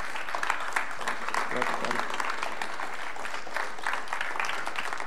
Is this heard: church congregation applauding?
yes